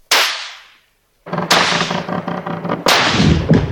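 Gunfire from a siege bombardment by attacking Kurds: a few sharp, loud cracks with ringing decays, the later shots overlapping into a sustained, dense rumble.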